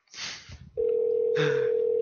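An outgoing telephone call is placed: a short burst of hissy noise comes first, then a steady, sustained call tone starts and holds to the end.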